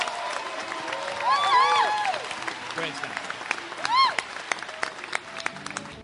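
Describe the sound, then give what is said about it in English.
An audience applauds to welcome a guest speaker, with steady clapping, cheering and a few bright whistle-like calls rising through it. “I want us to put our hands together and give him a warm Gwinnett welcome to our guest speaker for the day”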